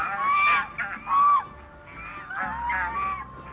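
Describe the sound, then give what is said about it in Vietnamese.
Honking calls from a flock of white swans flying overhead come as several loud, nasal bursts, some overlapping, with a softer stretch between them. “có một đàn thiên nga trắng xóa bay ngang trên đầu.”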